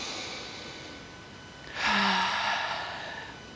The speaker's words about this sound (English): We can give that gift to ourselves with these deep breaths in.